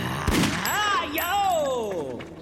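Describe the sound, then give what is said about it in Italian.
A single sharp shot from a battered old revolver cracks out early, followed by a loud, wavering shouting voice that carries over the rest. “Ho messo in fuga il mostro! La pistola funziona!”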